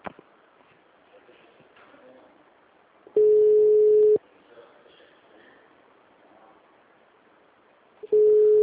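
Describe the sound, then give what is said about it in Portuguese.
A telephone busy signal: two long, steady beeps at a single pitch, each about a second long, separated by several seconds of faint background noise. The second beep is cut off at the end. “The number is busy.”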